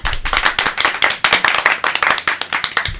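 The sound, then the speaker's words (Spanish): Hand clapping and applause at the close of a radio show, many brisk, sharp claps in a loud, steady rhythm that continues throughout. “¡Aplauso! ¡Aplauso!”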